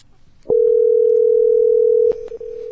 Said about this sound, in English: I'm gonna call her back.